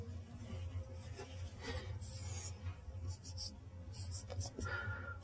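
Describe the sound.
Hand-drawn strokes of an energy band diagram for a MOSFET: faint scratching and rubbing of a pen moving in short, irregular bursts, with soft breathy voice sounds beneath.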